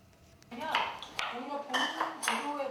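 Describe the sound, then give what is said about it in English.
Dishes, pots and cutlery clink and clatter in a kitchen during a cooking class in Busan, light metallic pings scattered over people talking. “This cooking class in Busan looks like a regular lesson. An array of fresh ingredients laid out in a kitchen with students eagerly following instructions.”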